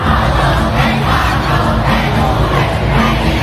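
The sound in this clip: A concert crowd roars outside a stadium. The sound is a dense, loud, unbroken wash of massed voices that holds steady with no pauses throughout.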